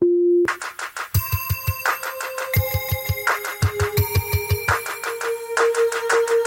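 Electronic telephone hold tones play on a call to a telecom company's customer service line while the caller waits. A steady tone gives way to loud, rapid repeating electronic beeps and chime-like pulses that shift in pitch.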